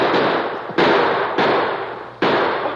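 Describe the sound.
Four rifle gunshots in an old-West shootout, each a sharp, loud crack with a long rumbling decay, spaced irregularly less than a second apart.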